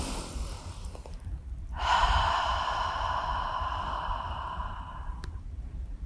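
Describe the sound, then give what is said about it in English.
A deep breath with one long, soft, airy exhale lasting about three seconds, then quiet. No one speaks. “Take a deep breath.”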